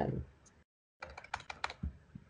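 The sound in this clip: Typing on a computer keyboard while writing notes, heard as a quick, uneven run of light clicks. The keystrokes resume after a short pause and stay fairly soft.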